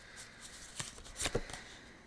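Cards handled from an oracle card deck, with a few brief, crisp papery snaps and slides standing out against a quiet background.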